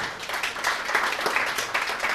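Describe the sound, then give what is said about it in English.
Audience applause for the musicians, a dense, steady patter of many hands clapping at an even level throughout, with no voices over it. “Actually, a little round of applause for the musicians.”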